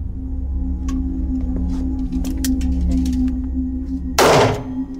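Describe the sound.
A single sharp, loud report from a .38 caliber revolver fired in a test demonstration into a twill cotton target, cutting through a steady low hum near the end.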